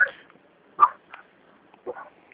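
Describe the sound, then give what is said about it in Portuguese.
Dogs barking, a few short, sharp barks spaced irregularly with quiet gaps between them, moderately loud and with no talking. “O que é isso? Os cachorros latindo aqui.”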